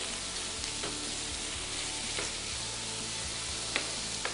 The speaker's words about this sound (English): you got me a fork? Anything just to stir this up.